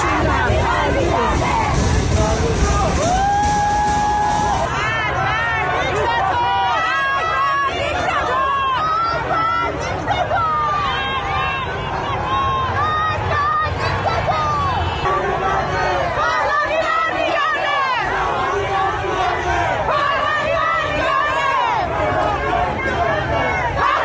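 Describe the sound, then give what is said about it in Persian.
Protesters chant slogans at a rally in Tajrish Square, Tehran: a dense, loud roar of many voices that holds steady throughout, with overlapping shouts and crowd babble. “در 18 دی ماه معترضان شعار مرگ بر دیکتاتور سر می‌دهند. شعارهایی هم در حمایت از شاهزاده رضا پهلوی در این تجمع به گوش می‌رسد. اینجا میدان تجریش و همه اومدن بیرون.”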